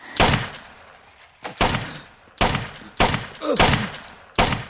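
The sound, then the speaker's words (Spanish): Pistol shots fired by a boy riding a bicycle in a street: several sharp, loud cracks spaced irregularly, each followed by a short decaying tail, with no talk. “El niño de la bicicleta dispara a Combo. Vuelve a disparar.”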